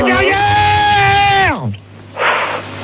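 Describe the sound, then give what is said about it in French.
A man yells loudly into someone's ear: a long, sustained, strained shout that drops sharply in pitch at its end, followed by a brief breathy burst. “je te remercie de gueuler dans mes oreilles.”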